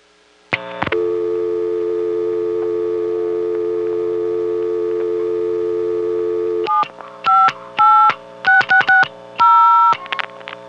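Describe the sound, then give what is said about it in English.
Telephone exchange signaling tones as one office sends dialed digits to the next: a long, loud, steady tone, then a quick run of short two-tone bursts that shift in pitch, heard alone. “you'll hear the 756 office sending 86660 to 758, which will proceed to send 660 to the Centrix.”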